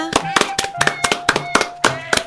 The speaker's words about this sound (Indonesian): Tepuk tangan untuk semua!